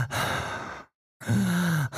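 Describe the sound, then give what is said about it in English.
A man's deep voice imitates heavy, out-of-breath breathing: two long, loud breaths split by a short silence, the second carrying a low, groaning voiced tone. “It sounded like a guy out of breath. It was like,”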